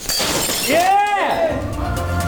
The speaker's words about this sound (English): Shattered on the floor.